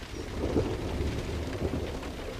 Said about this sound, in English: They eye each other as rain pours down outside.